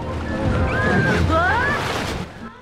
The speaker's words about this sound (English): Fly grabs Stella as a big wave splashes them.